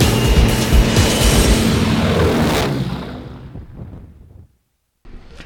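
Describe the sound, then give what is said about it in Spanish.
An aircraft takeoff roll gives a loud, broad engine roar that holds steady and then fades away over a few seconds into brief silence. “Iniciamos carrera de despegue.”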